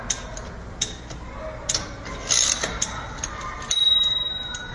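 A typewriter carriage advances toward the right margin with irregular mechanical clicks and ticks, then the margin bell rings once with a bright tone that lingers and slowly decays.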